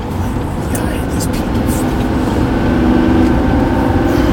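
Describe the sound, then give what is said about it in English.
Loud, steady road roar and engine rumble from inside a car merging onto a highway, a dense low drone that swells slightly toward the end. “This, come on, man, we're getting on the highway.”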